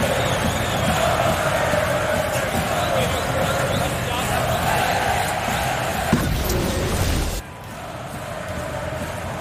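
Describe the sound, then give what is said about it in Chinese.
An arena crowd sings during a basketball game involving the Spurs, a loud, continuous wash of massed voices under a commentator's talk, dropping sharply in level near the end. “这现场又开始唱歌了啊！”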